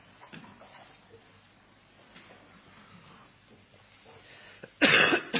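A harsh cough from a bad chest, the kind that could be dry or chesty, bursts out loud near the end after a long stretch of quiet, low murmuring background.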